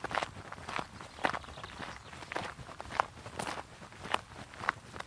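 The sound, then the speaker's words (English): Footsteps on a track climbing gently up from an A road in Dorset. The steps are soft and faint and fall in a steady, even walking rhythm throughout. “The first stretch of the walk is climbing up from the A road, and it's a gentle climb along a track.”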